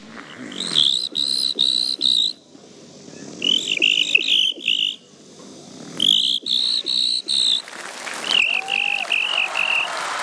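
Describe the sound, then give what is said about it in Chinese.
A human voice imitates a cricket, giving shrill, high-pitched chirps in rapid pulsed bursts. Several separate groups of pulses are broken by short pauses, loud and with no talk over them. “第二种声音，给我学一只蟋蟀。 听好了，蟋蟀来”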